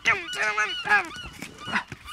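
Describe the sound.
Seagulls call in a quick series of loud, harsh, honking squawks, several cries following one another with no voices.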